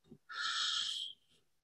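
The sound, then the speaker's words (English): A long, breathy exhale is blown out through the mouth during a breathing exercise. A brief soft breath sound comes first, then a steady airy rush that tapers off. The exhale is faint and heard alone. “inhale through your nose, big inhale. Exhale through your mouth, blowing it out.”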